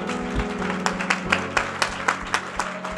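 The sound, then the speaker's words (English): A church audience claps their hands in time with music during worship, a steady rhythmic run of sharp claps over sustained musical tones. “Clap your hands unto the Lord. Clap your hands.”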